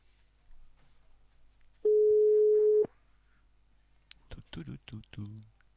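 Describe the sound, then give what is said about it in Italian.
A single steady ringback tone on a telephone line, lasting about a second, followed after a short pause by a voice talking. “Ce l'abbiamo al telefono, lo chiamiamo. Lo chiamiamo in diretta. Tutu. Attendiamo.”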